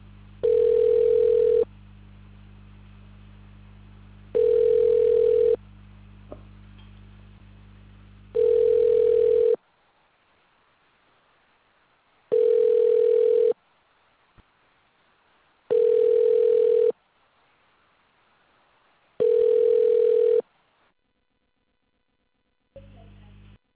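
A telephone ringback tone plays while a call is placed: six steady, mid-pitched tone bursts, each about a second long, evenly spaced with quiet gaps and a low hum at the start.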